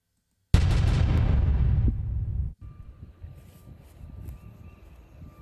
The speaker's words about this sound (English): Here he is from his uh, video when he when he shot up the beer.